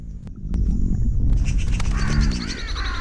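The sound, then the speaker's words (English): Birds in a forest take flight with harsh, crow-like cawing calls over a low, steady rumble, the calls growing busier after the first second. “Birds take flight, and Fox, Owl and Snake stare fearfully from their hideouts.”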